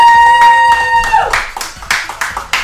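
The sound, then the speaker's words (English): A live studio audience in Chicago claps. A held tone fades out first, then a few sharp, separate claps follow in a loose rhythm. “this is Rabbi Garfinkel of Project 613 here in Chicago with a live studio audience.”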